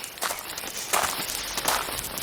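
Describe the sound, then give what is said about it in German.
Footsteps of a person walking over to another picker along the rows of a harvest field, a few soft, crunchy steps in a steady rhythm, fairly loud, with no talk over them. “Ich gehe mal zu ihm rüber.”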